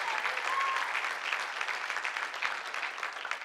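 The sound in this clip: Church audience applauding, a dense, steady wash of clapping that holds at an even, fairly loud level for the whole stretch, with no clear break or voice standing out.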